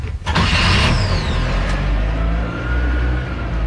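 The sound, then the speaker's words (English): A gas-powered Toyota car engine starts with a brief cranking burst, then settles into a loud, continuous low rumble that rises slightly as the throttle is given some gas. “And ignition. Gear. A little throttle. Push this Toyota.”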